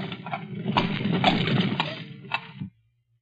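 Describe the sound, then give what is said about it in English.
A taxi cab engine rumbling as a low, noisy drone at moderate volume, cutting off abruptly near the end, leaving near silence. “There's a cab. Let's hop it and ride the rest of the way. Hi, cabby! A cab!”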